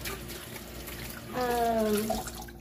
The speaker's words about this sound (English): Sorry, I'm making a mess. I have to wash more.